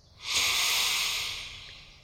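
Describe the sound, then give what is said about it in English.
A single long, deep inhale taken during a guided outdoor relaxation exercise: a smooth, airy hiss that swells quickly, holds steady for over a second, then slowly tapers off, with no talking over it. “Come on Let's take a few deep breaths together. Ready? Breathe in.”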